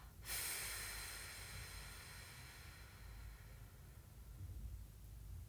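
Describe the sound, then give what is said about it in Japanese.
Breathing during a relaxation exercise: one long, noisy breath begins sharply near the start and carries on steadily, with a soft low rumble underneath and no talk. “吐きます背筋まっすぐして笑いながら吸う、うん、吐きます”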